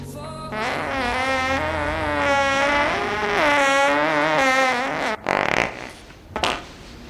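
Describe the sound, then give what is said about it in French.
A long, tonal fart with a wavering, buzzing pitch that holds for about five seconds, then gives way to a couple of short, rough noise bursts. “Tu viens de péter, là? Ok, j'ai pété, oui, soyons honnêtes, c'est vrai.”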